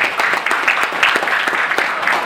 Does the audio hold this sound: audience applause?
yes